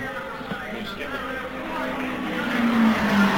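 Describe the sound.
A race car speeds past during an IndyCar race, a droning engine tone that swells steadily and climbs in pitch toward the end, heard beneath a commentator's voice.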